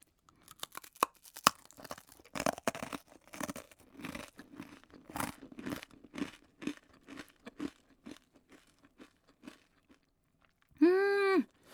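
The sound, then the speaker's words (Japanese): Crunchy kuro-okoshi, a puffed rice cracker made with raw brown sugar, is bitten and chewed with many crisp, irregular crunches that gradually soften, followed by a brief hummed vocal sound at the end. “この黒おこしは黒糖を生のまま使用しているということで、この粒の中に黒糖が入っているっていうのも特徴らしいですね。じゃあいただきます。”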